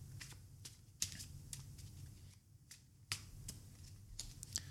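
A tarot deck is cut and handled, giving faint soft clicks and card slaps. A few sharper snaps stand out among quieter irregular tapping.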